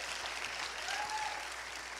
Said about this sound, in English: Everybody give her a round of applause.